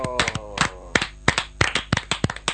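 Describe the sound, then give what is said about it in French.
Enthusiastic hand clapping acclaiming during a church service, with many quick, sharp claps in an uneven but steady run and a voice briefly heard at the start. “Alléluia, on acclame Jésus.”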